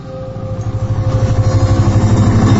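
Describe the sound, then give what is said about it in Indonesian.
A motorcycle engine runs steadily as a rider heads home at night, a loud low rumble with a fast pulsing throb that holds an even level throughout. “Aku pun mengendarai motorku dan pulang ke rumah.”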